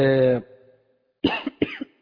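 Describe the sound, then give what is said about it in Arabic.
A person with a mild cold coughs. Brief speech trails off, and after a short silence come two husky coughing bursts in quick succession. “معلش اعذروني عندي برد بسيط كده، ف اعذروني في الكحة النهاردة يعني”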